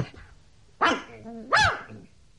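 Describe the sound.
Two sharp, mid-pitched barks from a dog on a leash, a little under a second apart, with quiet between them.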